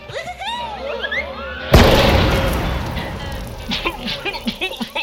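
A glitter bomb explodes with a sudden loud bang, followed by a decaying rushing hiss and a scatter of small pops and crackles.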